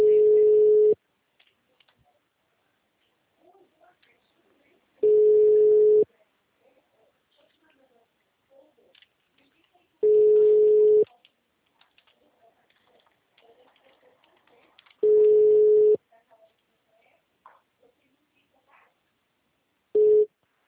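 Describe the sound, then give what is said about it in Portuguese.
Telephone busy signal: a steady mid-pitched tone about one second long repeats five times at regular intervals of roughly five seconds, with only faint murmurs between tones. “Alô? O número está ocupado.”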